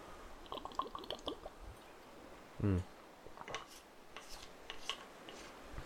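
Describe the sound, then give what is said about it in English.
A single brief, loud slurp or gulp as someone takes a sip of water, standing out alone between faint scattered rustles and clicks. “I'm gonna take a sip of water.”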